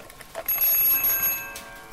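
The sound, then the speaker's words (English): A small silver anniversary clock runs under a clear glass dome. A few faint clicks are followed by a bright metallic ringing tone that holds for about a second and then fades. “an anniversary clock, a very small silver clock with a clear glass dome over the top.”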